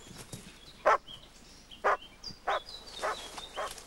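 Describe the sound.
A dog barking as it chases young people running up a path: five sharp, fairly faint barks at uneven intervals over a low background rustle.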